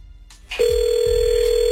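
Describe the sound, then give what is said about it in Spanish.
A telephone readied to call someone gives a couple of soft clicks and rustles, then a steady, continuous dial tone that holds at one pitch, with a few dull low thumps beneath it. “ahí le vamos a marcar”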